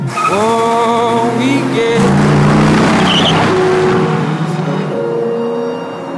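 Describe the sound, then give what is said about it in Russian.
A green sports car's engine revs loudly and pulls away, its tone rising and shifting as the car moves off, steady and powerful throughout before easing slightly at the end. “садится в зеленый спортивный автомобиль, заводит мотор, трогается.”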